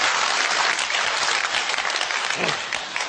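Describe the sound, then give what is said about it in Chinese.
Applause from the audience at a live stage comedy performance, a dense, loud roar of many hands clapping that stays strong throughout and eases slightly toward the end. “来来来，谢谢您的掌声。”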